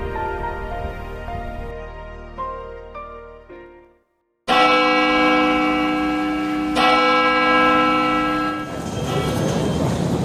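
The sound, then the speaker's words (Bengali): A college bell rings with deep, resonant tones and long humming overtones. Two strong strikes stand out in the second half and ring on loudly. “ঢংঢং করে bell পড়ে গেল”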